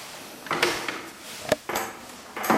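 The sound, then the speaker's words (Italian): A key turning in a lock and a door opening as someone enters an old house, heard as several metallic rattles and clunks with one sharp knock in the middle. “E aspetta, un'altra chiave. Adesso entriamo.”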